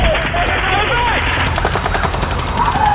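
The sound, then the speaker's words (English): Rapid automatic gunfire from a mass shooting, with shots coming from Mandalay Bay, crackling steadily throughout over a dense roar of noise and shouting voices. “I'm down! I got shot! I see the shots coming from Mandalay Bay.”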